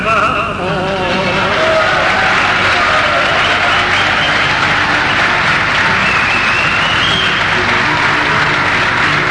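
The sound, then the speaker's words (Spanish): Sustained crowd applause after a sung verse at a Good Friday religious gathering, a dense, steady wash of clapping that stays loud and even for the whole stretch, with no speech over it. “Es hermoso ver la gente que unida aplaude este canto en este viernes que es santo.”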